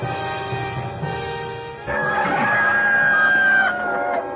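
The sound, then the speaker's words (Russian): A rooster crows on a murky February dawn: one long, drawn-out crow rises partway through and holds before cutting off, over a steady tonal background. “Кричали петухи в мутном рассвете.”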